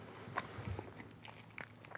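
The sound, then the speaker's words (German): Someone eating and chewing food: faint, soft bites and moist chewing noises come in a few irregular bursts over a quiet background. “Also, wer ein Problem damit hat, dass ich jetzt ein bisschen am Essen bin,”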